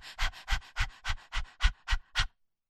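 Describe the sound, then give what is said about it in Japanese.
A human voice imitates a dog's panting, eight quick breathy puffs that alternate exhale and inhale in a steady, even rhythm before stopping abruptly. “一緒に犬の呼吸を真似して、吐いて吸って吐いて吸って”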